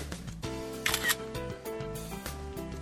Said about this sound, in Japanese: みんな写真撮ろう、集まって。 いいよ。 いくよ。はい、チーズ。